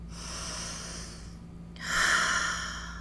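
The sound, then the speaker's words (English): A long, slow breath taken as a calming pause: two drawn-out airy sounds, the second louder and brighter than the first, soft overall with no talking. “Take a moment, take a breath,”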